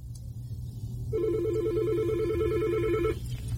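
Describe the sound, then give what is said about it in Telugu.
A telephone rings in a radio studio as a caller phones in: one rapid, warbling electronic ring lasting about two seconds, over a steady low hum. “నాకు caller call చేస్తున్నారు, వారిని on air తీసుకుంటున్నాను.”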